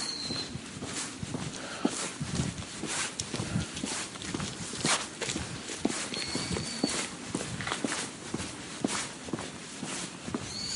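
Footsteps of someone walking outdoors near a pond, phone in hand, a faint, steady run of many soft steps over a low background hiss, with no talk.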